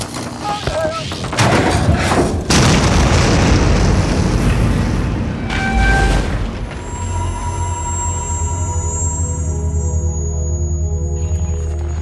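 A bomb explodes in a loud, broad blast that swells into a heavy rumbling roar lasting several seconds. A second burst follows before the sound dies away into a lower, steady hum.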